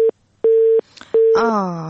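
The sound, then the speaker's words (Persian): A busy tone sounds after a phone call is cut off: three flat, loud beeps of equal pitch with short gaps between them, and a voice starts speaking over the last one. “متاسفانه که تماس لیلا همساز قطع شد.”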